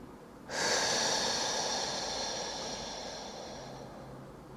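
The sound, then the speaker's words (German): A slow breath in a breathing exercise, in through the nose and out through the mouth, is heard as one long, soft, airy rush. It starts abruptly and tapers gradually over about four seconds, alone and quiet. “Durch die Nase ein. Und lässt den Atem durch den Mund hinausfließen. Wieder ein.”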